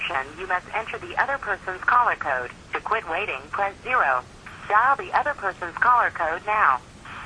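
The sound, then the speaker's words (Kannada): Automated recorded voice message playing over a phone line, narrow, thin telephone-quality speech running steadily through the whole clip with no other voices. “ಏನೋ recorded message ಬಂತು, ಕೇಳಿಸ್ತಾ ಇದ್ರಿ?”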